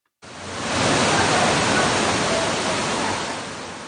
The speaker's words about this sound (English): That is the sound of water rushing into a subway station in New York City.